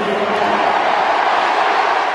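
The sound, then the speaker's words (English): Crowd cheering from spectators at an Australian football event, a dense, steady roar of many voices that holds at an even level for the full two seconds with no single voice standing out. “Yeah, that got a cheer.”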